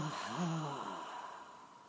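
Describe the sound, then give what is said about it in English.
A deep breath drawn in through the nose and pushed back out during a relaxation exercise, heard as a soft, airy breath with a faint low voiced tone near the start, gently tapering away. “You take a deep breath in through your nose. And push it out.”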